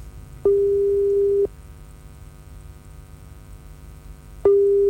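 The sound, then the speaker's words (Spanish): Telephone line tone while a call is being dialed: two long, steady beeps at one constant pitch, about three seconds apart, the second cut off at the end, with a faint hum on the line between them. “Estamos marcando. Estamos marcando. Vamos a ver.”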